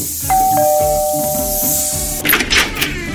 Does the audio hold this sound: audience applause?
no